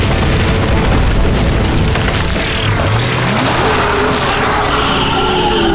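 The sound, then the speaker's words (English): A grenade explosion erupts as one loud, dense roar that fills the whole clip, deep rumbling and crackling throughout with no pause or voices. “Grenade! Get down!”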